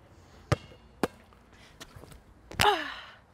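A basketball dropping through the net during a shooting session: two sharp knocks and a few softer taps, then a louder hit that trails off into a brief rushing swish.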